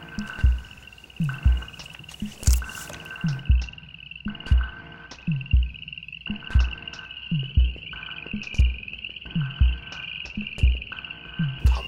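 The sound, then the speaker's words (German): Frogs croaking: many short, throaty croaks in a steady, repeating rhythm, loud and clear, over a continuous high insect-like trill. “Die Frösche wurden von der Extinktion vergessen.”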